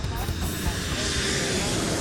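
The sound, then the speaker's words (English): A steady, loud roar of an aircraft coming in to land: even engine and rushing air hold constant throughout, with a faint tonal whine running through the broad noise. “Sometimes an aircraft landing is as smooth as silk.”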